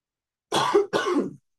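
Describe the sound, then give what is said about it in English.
Someone chokes and coughs twice, two rough, harsh bursts in quick succession, loud and alone. “Excuse me. I'm choking on it”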